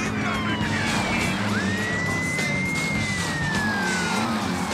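A police car siren in a driving video game wails in long sweeping tones, rising and then slowly sliding down, laid over a loud, unbroken roar of engine and road noise.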